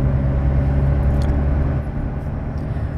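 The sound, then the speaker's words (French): A car drives through open farmland countryside in central Brittany: a steady low engine and road rumble that runs continuously, with its level dipping slightly partway through. “Là, on roule dans la campagne complète.”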